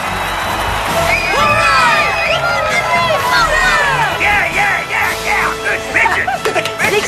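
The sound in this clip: Family members cheer at a baseball game amid a loud crowd, with whoops, high shouts and excited yelling rising and falling throughout.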